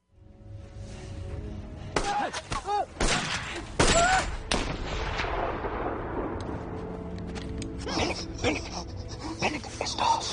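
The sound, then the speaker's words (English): Gunfire in a film scene as a man who cannot see fires blindly at an enemy he thinks is approaching. Several sharp, loud shots crack in quick succession, then a noisy rumbling tail lingers, with voices heard throughout. “He just starts shooting blindly, trying to kill the enemy he thinks is coming his way, and see how Dez handles this guy who can't see.”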